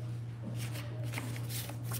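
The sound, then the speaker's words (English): Playing cards being flipped through one by one while someone searches for a particular card, a run of soft papery riffles and snaps over a steady low hum, with no talking. “I want to make sure I have the right card. Nope, not that one. Not that one.”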